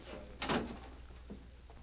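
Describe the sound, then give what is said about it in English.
A door being closed, heard as one muffled, fairly faint thud with a short rattle, followed a moment later by a softer knock against a quiet background. “Oh, Sam, wait a minute. I'll talk to you. Close that door.”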